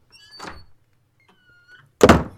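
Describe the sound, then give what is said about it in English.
A door is closed: a soft shuffling knock comes first, then after a pause the door shuts with a loud, heavy thud at the end. No voices are heard. “You may close the door behind you.”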